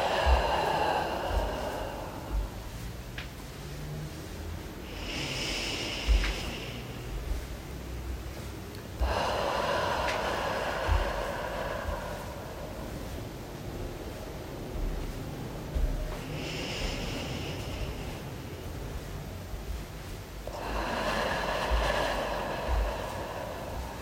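Slow, deep breaths in and out during a relaxation exercise: a few long, airy inhales and exhales in a steady, unhurried rhythm, with quiet pauses between them.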